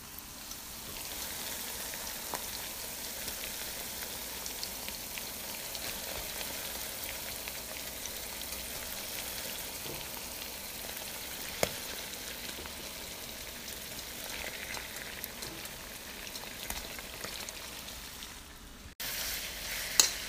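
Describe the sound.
Onions, garlic, leaves and shrimp or prawns sizzle in a pan, making a dense, steady crackling hiss that runs almost unbroken. Near the end it dips briefly, then returns with a louder burst. Nobody talks.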